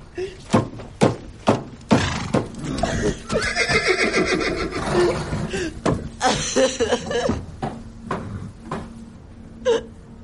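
An agitated horse in a stable, upset after a fist strikes a wall, gives a long loud whinny amid many sharp thuds and stamping knocks, with more scattered thumps before and after.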